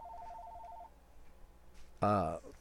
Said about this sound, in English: I got a phone call. Just a minute. One sec.